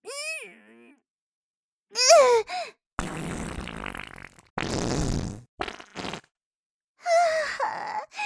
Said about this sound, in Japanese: 本命のおならがお腹から降りてきて、腰を少し下ろしてからお尻をぐいっと突き出して、こんな風に思いっきり、